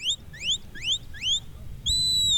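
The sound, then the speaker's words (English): A metal herding whistle blown at a sheepdog trial while a border collie works sheep on a grassy field. Four quick, shrill rising chirps are followed by a longer steady high whistle tone over light background noise. “Standing by a post, a woman holds a metal whistle to her lips as a border collie dashes back and forth behind a herd of sheep.”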